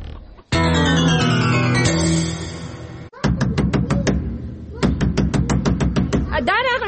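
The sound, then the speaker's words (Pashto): Hurried knocking on a door in a drama, with rapid, insistent knocks coming in two quick loud bursts. “څوک چې داسې په بیړه دروازه ټکایي”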